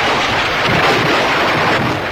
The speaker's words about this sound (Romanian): Fulgere, vijelie și alte trezneli meteoradiofonice Romeo Chelaru.